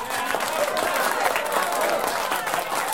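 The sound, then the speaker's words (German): Wedding guests applaud after the bridal couple's dance, with dense, steady clapping and crowd noise that holds at an even loudness throughout. “Bitte um einen kräftigen Applaus für diesen tollen Tanz unseres Brautpaares Semjon Petrov und Maria Sakolova.”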